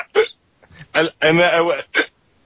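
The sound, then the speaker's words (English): A human voice imitates a drunk black-beaked bird that has been eating fermented berries, mixing garbled, talk-like squawks with abrupt hiccup sounds. Several short vocal bursts surround one longer warbling stretch, loud and close. “the second sound is actually the bird hiccuping from being drunk off the fermented berries that it's been eating”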